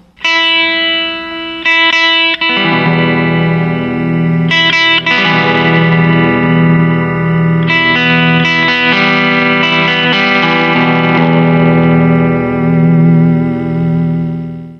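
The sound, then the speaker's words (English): An electric guitar plays a single sustained high E string note, then an E minor chord that rings out and is restruck a few times. The tone is loud, bright and processed with effects. “I'll play my high E string followed by an E minor chord.”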